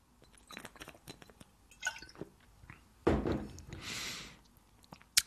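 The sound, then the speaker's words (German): The last sip of a drink, a brief slurping gulp with a soft hiss of liquid, preceded by faint clicks and rustles. “Letzter Schluck.”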